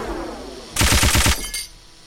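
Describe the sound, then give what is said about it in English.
Machine gun fire: one short, loud burst of rapid, evenly spaced shots lasting about half a second, then a brief fading tail. “Machine gun.”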